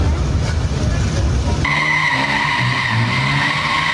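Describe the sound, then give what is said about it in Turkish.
Tires squeal as a car drifts on a city street at night. A loud engine roar gives way partway through to a sustained, high-pitched skid squeal that continues to the end. “Gece vakti caddede attığı bu drift pahalıya patladı.”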